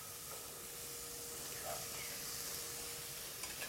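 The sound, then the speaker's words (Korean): Onions and king oyster mushrooms stir-fry in a pan, giving a faint, steady sizzling hiss that carries on evenly with small crackles near the end. “자 이제 양파를 한번 볶고요. 양파를 볶고 그다음에 새송이를 넣고”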